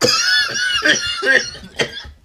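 Coughing after a hit from a Stiiizy vape pen comes as a few harsh, raspy bursts in an uneven rhythm and trails off quietly.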